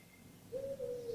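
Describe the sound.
A female bird's call, pitched a tone higher than the male's, rises as a smooth, sustained tonal coo in two joined parts, clear and steady over a low background hum.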